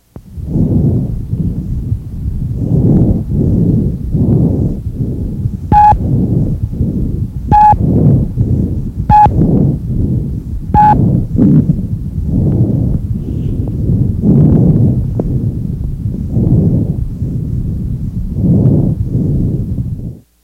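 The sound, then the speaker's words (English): Bronchovesicular breath sounds from a medical teaching recording, with inspiration and expiration of about equal length. They repeat as a steady run of soft, low, breathy rushes, and four short, clear beeps occur in the middle. “These are bronchovesicular breath sounds.”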